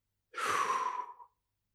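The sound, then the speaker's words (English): One deep breath comes as a single smooth, airy sigh about a second long. It is soft and breathy and heard alone. “let's just take a deep breath in right now and exhale it out.”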